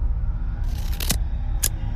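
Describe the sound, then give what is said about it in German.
Scissors cut through an old black bed sheet, giving a couple of crisp, short snips over a steady low background hum. “Tomo nimmt eine Schere und zerschneidet das Bettlaken.”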